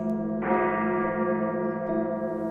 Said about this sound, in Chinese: 夜深人静，教会图书馆中的大钟响了两下